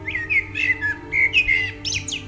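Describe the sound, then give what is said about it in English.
A blackbird singing in the dawn chorus: a run of rich, fluting whistled phrases with warbling turns and short pauses between them, clear over a low steady background hum. “the rich, melodic song of the blackbird, one of the true stars of the dawn chorus.”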